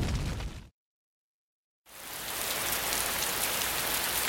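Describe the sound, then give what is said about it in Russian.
Rain falling outdoors on a windy day, a dense, steady hiss of drops that cuts out to complete silence for about a second, then returns and continues evenly to the end. “На улице шел дождь, и ветер пронизывал до костей.”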